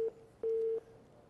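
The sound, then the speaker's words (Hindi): A telephone busy tone sounds after a dropped call: a steady mid-pitched beep, first a short cut-off pulse, then after a gap one longer pulse, faint and alone. “Call drop हो गई।”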